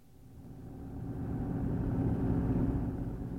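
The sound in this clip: Low engine rumble and road roar from a green Renault driving fast on a dark highway swell in loudness over the first two seconds, then hold as a dense, steady drone with no voices.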